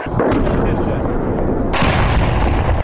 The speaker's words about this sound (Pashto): دا هغه ډي سي توپ دی چې تازه حکومتي مسؤلینو د لشکرګاه ښار اړوند د پیرسابز کلا او باباجي د امنیتي کمربند ساتلو لپاره د پولیسو د تعلیمي مرکز په وڅنډه کې ځپته کړی دی.